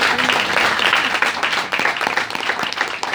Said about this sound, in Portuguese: Uma salva de palmas, gente. Espetacular.